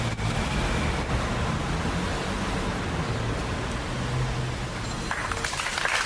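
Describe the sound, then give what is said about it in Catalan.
Applause outside Gandesa town hall in Terra Alta after a minute of silence for a girl who died: dense, steady clapping from a crowd that stays at an even level for the whole stretch. “Aplaudiments després del minut de silenci davant l'Ajuntament de Gandesa per la nena de 9 anys que ha perdut la vida a la Fontcalda, a la Terra Alta”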